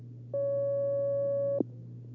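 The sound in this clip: A telephone line tone sounds as a caller comes onto a phone-in line, a single steady electronic tone lasting just over a second over a low constant hum, ending with a small click.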